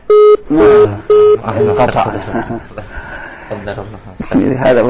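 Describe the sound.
A phone-in call on a radio line cuts off with a few short, loud, evenly spaced beeps of a disconnect tone, after which people talk.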